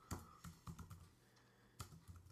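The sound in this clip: Typing on a computer keyboard: quiet clicking keystrokes come in a few quick clusters, with a brief pause before a final burst of taps.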